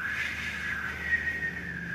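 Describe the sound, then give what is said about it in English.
A voice imitating a whistle: one steady, faint, high-pitched tone held for about two seconds, wavering slightly, with nothing else heard. “the cloud will not hum. It'll kind of whistle, like,”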